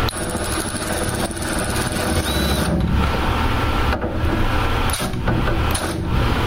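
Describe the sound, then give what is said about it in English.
A ratchet wrench tightening a bolt with its direction switch unlocked, giving a loud, dense, continuous mechanical rattle with a few sharper ticks standing out along the way. “I have the switch unlocked. I slid the switch that it's unlocked, and I will tighten this bolt.”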